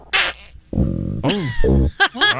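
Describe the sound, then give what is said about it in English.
Gurgling, rumbling stomach growls in a few uneven bursts, with squeaky, bending pitches and low bubbly groans. The sound is fairly loud, with short pauses between the bursts. “No, that's a stomach growling, actually.”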